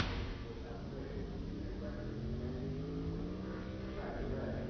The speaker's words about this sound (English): Shane Van Gisbergen pulling onto the racetrack. He's taking his Trackhouse Chevrolet through turn one, headed down the long pond straightaway.